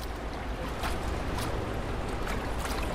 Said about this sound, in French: Écoutez la ville rêvée bâtie sur l'eau.